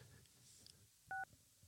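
A single short, clear telephone keypad tone as a number is dialed, standing out over a quiet background.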